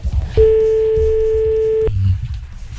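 A telephone call failing to ring through: one steady, mid-pitched tone holds for about a second and a half, then cuts off abruptly over low background rumble.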